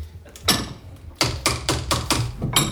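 A welded steel gun part in a gunsmith's workshop struck repeatedly: a series of sharp metallic taps, each with a short, bright ring. The strikes come at a fairly steady pace after a slower start.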